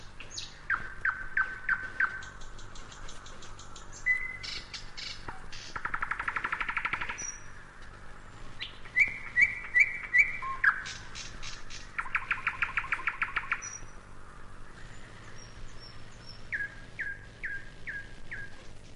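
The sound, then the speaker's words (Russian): Nightingale singing a varied song of many short phrases: clear whistles, rapid rattling trills and clicking runs, some notes steady and some pulsing, alone and fairly faint. “потом погромче, потом разошелся, да как засвищет, защелкает, как пойдет сыпать дробным горохом. Тут уж всем стало ясно, что это соловей.”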